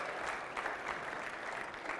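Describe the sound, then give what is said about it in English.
An audience at a seminar applauds a prop assistant, giving a fairly faint, steady wash of clapping that continues without a break. “How about a hand here for Nick, my prop guy?”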